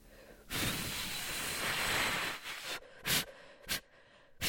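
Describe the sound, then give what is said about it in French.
A long, steady blow of breath aimed at birthday candles on a chocolate cake lasts about two seconds. A few short, sharp puffs follow, with no talking. “souffle tes bougies”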